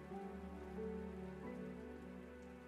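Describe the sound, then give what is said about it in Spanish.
Rain falls in a steady, soft, continuous hiss with low sustained tones underneath. It stays faint and even throughout, with no voices. “Y sientes el agua de la lluvia tocando tu cuerpo y goteando por tu piel”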